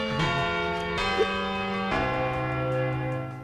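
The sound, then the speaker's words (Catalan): Bell strokes ring out in a slow, even rhythm, with three clear strikes about a second apart, each leaving a rich, sustained tone that overlaps the next. “A mi m'agradaria dedicar la tercera campanada al DJ Rayo”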